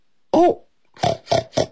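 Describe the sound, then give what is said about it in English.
A piglet oinking: one longer nasal squeal with a bending pitch, a short pause, then three quick, loud grunting oinks in a row. “饼干狗，这是什么声音？哦，原来是一只小猪猪从猪圈里面跑出来了。”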